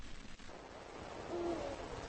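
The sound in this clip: A male eagle-owl, the world's largest owl species, gives a single low, deep hoot at nightfall from the distance, faint against a steady noisy background.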